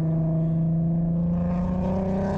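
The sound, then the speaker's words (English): A race car's engine drones at a steady, constant pitch with strong harmonics, joined by a growing hiss of tire noise toward the end as an R32 corners on track. “Bit of tire noise there from Jordan.”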